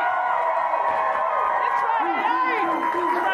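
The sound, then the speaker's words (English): Live crowd cheering and whooping at the Star Trek Mission Chicago convention. A continuous loud roar of many voices, with a raised voice carrying over the din throughout. “I said, welcome, Mission Chicago, make some noise!”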